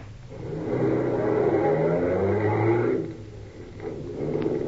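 A car pulls up and moves off: a loud, mid-pitched engine drone holds steady, drops away sharply partway through, then swells again toward the end.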